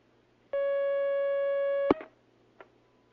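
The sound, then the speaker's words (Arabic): Telephone line tone as an incoming call connects: a single steady electronic tone held for about a second and a half, cut off by a sharp click, followed by a fainter click. “طيب يا شيخ محمد الله خلاص معنا مكالمة هلا”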